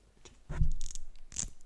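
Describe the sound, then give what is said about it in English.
Someone pulls apart a Velcro strap, making a couple of short, fairly faint rasping rips separated by a brief pause, with a low scrape beneath the first. “This is Velcro.”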